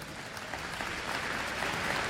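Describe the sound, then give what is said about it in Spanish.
Applause during a religious sermon, a steady, dense patter of many hands clapping, fairly faint and even throughout, with no talk over it. “Un aplauso al Espíritu Santo.”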